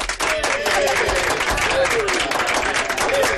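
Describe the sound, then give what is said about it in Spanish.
Studio audience of a TV show applauding excitedly, a dense, loud, continuous wash of clapping with cheering voices rising over it throughout. “Bueno, tenemos al público de Ole Mi Gente emocionado.”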